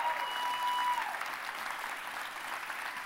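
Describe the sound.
A church audience applauds during a service, a steady, dense wash of clapping that holds at an even level with no break throughout.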